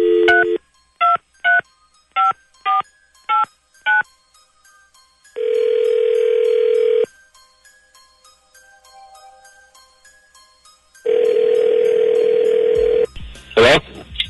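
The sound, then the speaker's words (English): A telephone number is dialed as a quick series of short, evenly pitched touch-tone beeps. Two long, steady tones follow with quiet gaps between them. “Dialing at random.”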